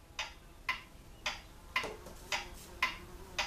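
A hand-assembled, high-end clock ticks steadily. Seven crisp, bright ticks land at an even, unhurried pace against a quiet background, with no voices.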